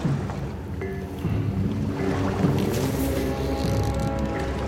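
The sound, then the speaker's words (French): A waterfall churns and whips chocolate in a chocolate factory, making a continuous, loud, watery rush with wet slurping and splashing textures throughout. “C'est parce qu'il est mélangé par une cascade. La cascade est des plus importantes. Elle mélange le chocolat, elle le fouette, le rend léger et mousse.”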